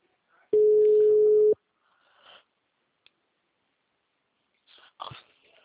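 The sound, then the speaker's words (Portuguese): Telephone busy signal on a Claro line: a single loud, steady mid-pitched tone lasting about a second, followed by quiet stretches with faint breathy, sniff-like noises. “O número chamado está ocupado. Tente novamente mais tarde.”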